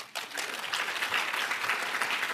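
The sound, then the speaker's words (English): Applause from an audience at a conference session: a dense, even clatter of many hands clapping that starts abruptly and holds steady throughout. “So let's first by giving a round of applause to Amber Ray.”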